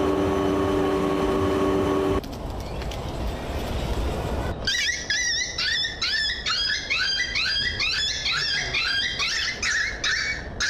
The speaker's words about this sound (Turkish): Fazla yaklaştığı geyik böceği bir anda burnunu kaptı. Feryadı basan yavru köpek kısa sürede kurtulup rahat bir nefes aldı.